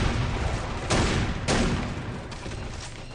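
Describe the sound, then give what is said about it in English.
Grenade explosions and gunfire boom in a video game shooter. A few sharp blasts burst out over a constant, loud, noisy din of battle. “Throw a nade.”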